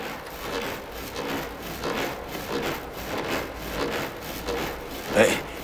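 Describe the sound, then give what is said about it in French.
Coiled hose hung by both ends from a tree branch as a swing, rubbing against the wood as it sways. Many steady, rhythmic scraping strokes with a sharper squeak near the end. “Sur ce tuyau enroulé qui ressemble à une chenille. J'ai accroché les deux bouts à la branche d'un arbre et ça me fait comme une balançoire. Et quand je me balance, ça frotte et ça fait du bruit.”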